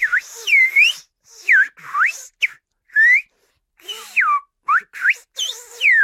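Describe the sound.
Whistled speech in French, a whistled language: a sequence of sharp, high gliding whistles rising and falling in short bursts separated by brief silences, loud and alone without any voice.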